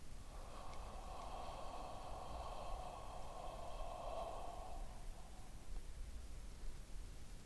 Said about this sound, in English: When you're ready to end the meditation, breathe in and breathe out.